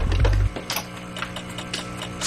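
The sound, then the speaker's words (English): Switches flip on a pastel green espresso machine, giving a few sharp mechanical clicks over a steady low hum. “carries an orange cup to a pastel green espresso machine. She places the cup on the drip tray. She turns the machine on and starts fiddling with the switches.”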